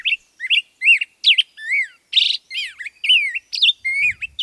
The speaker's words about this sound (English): And now, the up-tempo performance of the black-headed grosbeak.